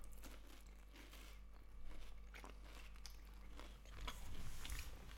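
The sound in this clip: Crisp biting and chewing of a crunchy wafer layer with Nutella, a few faint crunches over soft mouth noises, with a couple of slightly louder bites standing out.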